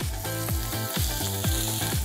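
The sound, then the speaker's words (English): Food frying on a grill over low fire gives a soft, steady sizzle with fine crackling and small repeated pulses, fairly faint and without any voices. “So we have to give the crust and then let it cook nicely through for a little bit of time, low fire.”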